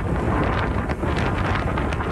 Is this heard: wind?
yes